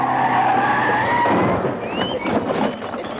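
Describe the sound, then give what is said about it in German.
A car's tires squeal in a long skid, a loud screeching whine over rough road noise that eases slightly toward the end. “Jetzt fabriziere ich einen Frontalzusammenstoß. Angriff!”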